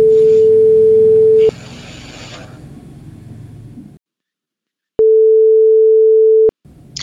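Ringback tone of an outgoing telephone call: two steady, pure, mid-pitched tones of about one and a half seconds each, separated by a long gap that holds a quieter hiss before falling silent.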